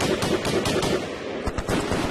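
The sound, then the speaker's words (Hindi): Light machine gun firing on enemy positions, rapid shots in a sustained burst lasting about two seconds, loud and harsh with no talk. “हवलदार दयाराम ने LMG को संभालते हुए दुश्मनों पर गोलियों की बौछार शुरू कर दी”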